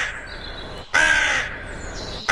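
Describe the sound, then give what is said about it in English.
Harsh, raspy crow caws, loud and drawn out, in a few long calls separated by brief gaps, with no voices. “the late Graham Kennedy got suspended for 2 weeks for impersonating a crow on live TV. He did. It didn't quite sound like this, did it?”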